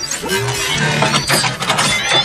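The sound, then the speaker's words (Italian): Mechanical clattering and ratcheting from an automatic pastry-making machine with rotating molds, a dense, continuous rattle of clinks and squeaky tones that holds at a loud level throughout. “La soluzione che fa per te è Sweet Transylvania, l'unica macchina automatica per fare pasticcini.”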